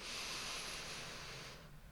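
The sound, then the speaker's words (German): A deep breath drawn in through the nose during a seated meditation exercise, heard as a soft, steady airy hiss that holds for about one and a half seconds before tapering off. “Und dann atme mal tief durch, durch die Nase ein”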